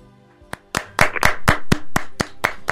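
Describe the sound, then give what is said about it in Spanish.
Applause in a studio: a steady run of sharp, evenly spaced hand claps at a brisk, regular pace, fairly loud and without talk. “La están aplaudiendo aquí en el estudio.”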